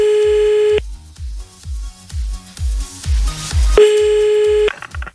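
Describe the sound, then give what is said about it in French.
A telephone ringback tone sounds while a caller dials back a person whose call was cut off. Two loud, steady, even-pitched tone bursts are separated by a pause, with a low, regular thumping beat running beneath. “Bah oui, il faut la rappeler. Bah oui, on va la rappeler, attends.”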